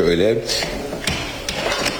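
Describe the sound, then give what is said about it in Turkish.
A few light clicks and rattles come as a door is opened at an apartment building under construction in Başakşehir, while a man talks throughout. “Ahmet'e ben kapıyı açayım hemen.”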